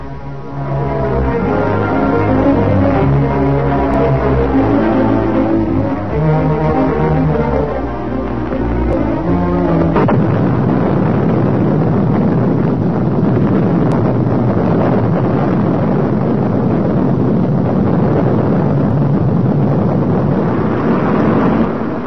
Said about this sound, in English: Missile goes aloft in a near-perfect takeoff. Fully loaded to a weight of 122 tons, it hurtles upwards before the enormous thrust of two rocket boosters and the main sustainer engine.